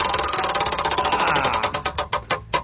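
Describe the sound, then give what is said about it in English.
Clattering ticks of a spun prize wheel, a rapid run of clicks that gradually slows, the gaps between ticks widening toward the end until it stops. “Just stretching out, and let me spin that wheel.”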